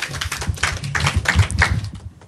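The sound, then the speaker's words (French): Scattered applause follows an improv comedy scene: loose, uneven claps with some dull thuds among them. The clapping thins out and fades toward the end. “On peut les applaudir”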